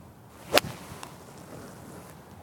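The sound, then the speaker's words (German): A golf club strikes the ball during a round, aiming for the green: one sharp, loud crack near the start, then quiet with only faint, scattered ticks afterward. “Ist vor allem auch ein Golfschlag.”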